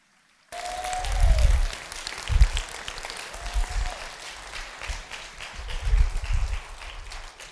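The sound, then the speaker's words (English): A church audience applauds to welcome its campus pastor. The clapping starts abruptly and continues as a sustained, moderately loud patter with a few swells. “Put your hands together and welcome Pastor Evan.”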